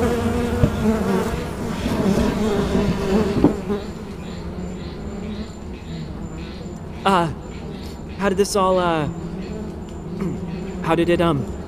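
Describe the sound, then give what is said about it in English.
Bees buzzing around a large hive in an abandoned garage: a loud, dense droning hum for the first few seconds, then quieter stretches broken by a few short swooping tones. “When I bought the house, there was this abandoned garage out here. And there was this huge hive.”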